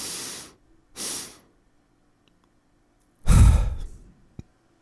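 Breathing during a breathwork exercise: two short, breathy intakes, a pause, then a long, forceful exhale that tails off into quiet. No one speaks.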